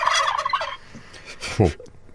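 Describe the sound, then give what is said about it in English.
Two large farm-raised turkeys from North Carolina gobble on the White House lawn at a turkey pardon ceremony. A loud, rapid, warbling gobble opens, followed by a few fainter, shorter calls. “Two large turkeys raised on the Jackson farm in North Carolina took over the White House lawn today in the annual turkey pardon.”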